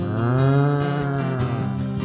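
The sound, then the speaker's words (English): A voice imitating a cow mooing in a song about barnyard animals: one long, loud, sustained low moo with rich harmonics and a steady pitch. “down by the barnyard. The barnyard. The cows, they were mooing, saying,”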